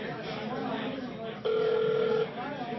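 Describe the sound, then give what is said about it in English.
A telephone ringback tone sounds on a dialled call, a single steady buzzing burst of under a second, heard over a murmur of background talk. “Call John Byrne.”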